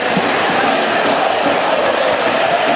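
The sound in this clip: Parma football crowd at the Tardini stadium protesting a foul call late in a 2-2 match against Inter, a loud, steady roar of many voices with no clear individual shouts.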